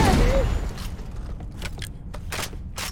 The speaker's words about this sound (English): ship is blowing up around us. Everything is on fire.